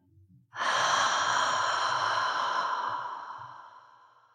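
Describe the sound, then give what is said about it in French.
A long voiced exhale on an open 'ah' vowel, part of a breathing exercise to release tension in the neck. After a faint breath, it starts abruptly, holds a steady, resonant tone and gradually fades away over several seconds. “Inspirez profondément dans la tension. Expirez sur un A.”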